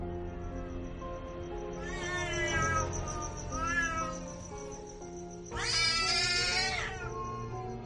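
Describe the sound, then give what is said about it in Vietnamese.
A black cat, attacked by surprise, meows a couple of times and then lets out a longer, louder, harsher yowl, all over a low, steady tonal background. “Con mèo bị tấn công bất ngờ, bỗng nhiên dựng lông lên, ngoao ngoao mấy tiếng, rồi sau đó nó gào lên”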